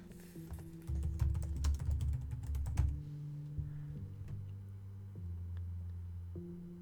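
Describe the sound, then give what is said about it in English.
Typing on a computer keyboard: a rapid burst of clicking keystrokes for about two seconds, then a few scattered taps, all over a low, steady droning hum. “I'm trying to type it”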